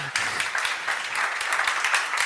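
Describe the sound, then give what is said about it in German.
A roomful of people claps for a longtime employee named Moritz, a brief, steady burst of applause that starts suddenly and keeps an even, moderate level. “Einmal bitte Applaus für Moritz auch.”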